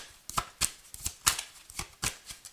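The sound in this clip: Tarot cards being shuffled and drawn, a series of crisp papery snaps and slaps at an uneven rhythm, fairly quiet, with no talk.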